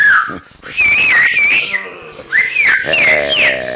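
Whistling used to gather people: two phrases of high, wavering, melodic whistle notes separated by a short pause, loud and clear over a faint low background.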